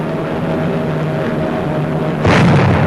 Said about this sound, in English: Its proximity fused and explodes in lethal range. Here's another record of a kill.